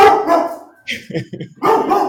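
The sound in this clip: A dog gives a few short barks in a quick cluster, set between stretches of a person talking.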